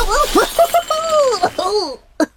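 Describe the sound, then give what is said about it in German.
A person trips over a cable and falls while carrying a tray of cups, heard as one brief, sharp crash of breaking crockery. A voice sounds just before it. “Ulk, pass auf, da liegt ein Kabel quer.”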